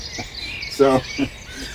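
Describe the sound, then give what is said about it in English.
Birds singing outside, a continuous layer of thin, high chirps and twitters at a moderate level throughout. “the birds are going nuts outside. It's like I live in an aviary”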